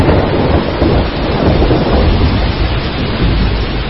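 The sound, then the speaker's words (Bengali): Heavy rain pours down in a thunderstorm with fierce wind over an open, unsheltered country path. The downpour makes a dense, loud, unbroken roar that holds steady throughout, with no voices. “দৈত্যের মতো কালো মেঘটা সারা আকাশ ছেয়ে ফেলল এবং মুষলধারে বৃষ্টি নামল। সেই সঙ্গে ঝড়ের সে কি বেগ!”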